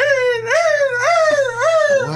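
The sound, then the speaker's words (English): A person imitates a hurt puppy with a series of whining, nasal whimpers, each rising sharply and then sliding slowly down in pitch, repeated several times in quick succession. “That's like a hurt puppy.”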